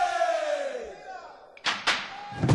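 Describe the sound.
A Burundian drum ensemble: a long, loud shout falling in pitch, then a few heavy, booming drum strikes.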